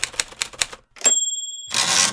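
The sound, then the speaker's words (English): Manual typewriter typing: a few quick, crisp key strikes, then a clear ringing bell tone over a rasping mechanical sweep, and finally a loud, longer noisy burst like the carriage being returned. “It's the sound of progress a century ago anyway, when manual typewriters first came on the scene.”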